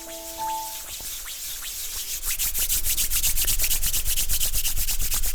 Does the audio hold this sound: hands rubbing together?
yes

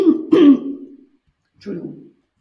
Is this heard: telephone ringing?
no

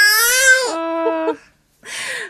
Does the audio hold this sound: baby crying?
yes

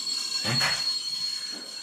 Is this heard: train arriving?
yes

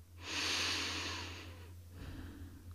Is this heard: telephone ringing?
no

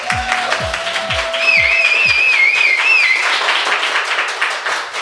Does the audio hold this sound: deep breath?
no

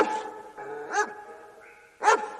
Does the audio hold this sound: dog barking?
yes

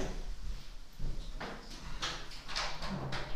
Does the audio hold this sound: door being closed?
yes

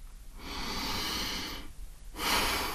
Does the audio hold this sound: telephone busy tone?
no

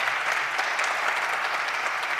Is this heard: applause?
yes

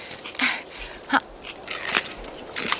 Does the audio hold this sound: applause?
no

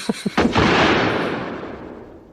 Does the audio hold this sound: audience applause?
no

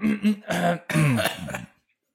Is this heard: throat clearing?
yes

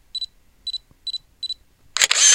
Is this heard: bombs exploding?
no

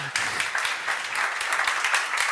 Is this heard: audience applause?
yes

